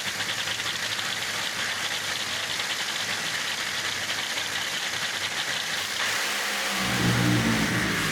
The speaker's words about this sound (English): here's Alan Reinhart with the run and the call with Billy Torrence in Top Fuel